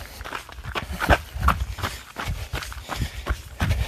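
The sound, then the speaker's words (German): Footsteps walk a short stretch as a steady series of many soft, evenly spaced thuds in a regular walking rhythm. “So, dann laufen wir wieder ein Stückchen.”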